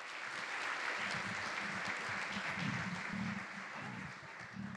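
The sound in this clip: Steady applause from an audience welcoming a speaker, a soft, even rush of many hands clapping that holds at a constant level throughout.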